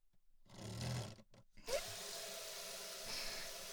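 Water from a shower rinses a treatment out of someone's hair: a brief clunk and a short pause come first, then a steady, even hiss of running water continues to the end.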